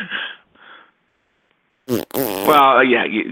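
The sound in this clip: Comedic fart sound effect: two short breathy puffs, a pause, then a loud, buzzing rasp with a wobbling pitch that stretches out over more than a second.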